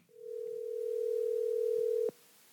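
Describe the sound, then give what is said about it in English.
A telephone line tone as a call is dialed out, one steady pitch held for about two seconds before it cuts off with a click, leaving a quiet hiss. “Let's get him on the phone.”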